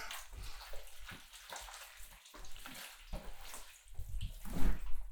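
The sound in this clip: Water pouring and rinsing away in a rushing, splashy flow that comes in uneven surges and grows louder toward the end.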